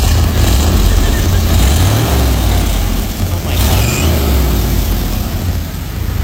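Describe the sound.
An old car's engine, newly restored to running order, idles with a loud, steady low rumble and a constant mechanical drone.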